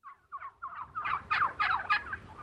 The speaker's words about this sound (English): These are heritage turkeys.